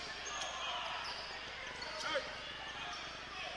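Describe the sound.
A basketball dribbled during a game, the bounces coming as a few faint thumps under constant crowd noise and voices.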